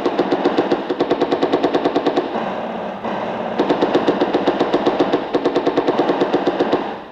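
Machine gun fire against advancing enemy infantry in a wartime battle: long, rapid bursts of sharp, evenly spaced shots, loud and continuous. A brief stretch of dense rumbling noise breaks the bursts before more firing.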